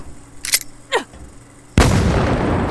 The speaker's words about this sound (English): Fucking flashbang! Shit! Flashbang grenade!